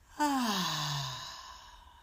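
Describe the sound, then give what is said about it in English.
One long, deep breath is let out like a sigh during a guided breathing exercise. It is soft and voiced, falls in pitch, and fades away gradually. “Breathe in and out.”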